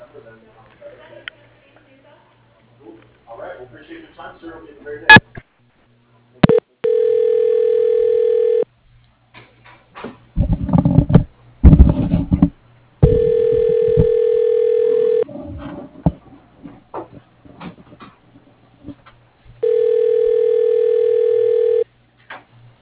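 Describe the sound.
Phone line tones while a call is transferred to voicemail: three loud, steady ring tones of about two seconds each, separated by clicks and bursts of handling noise. Faint talk is heard at the start.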